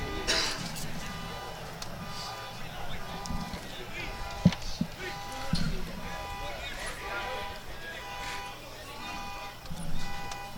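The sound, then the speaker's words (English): A car alarm sounds during a baseball game, its repeating electronic tones pulsing steadily under continuous talk throughout. “Somebody's car got dinged. You can hear their alarm going off.”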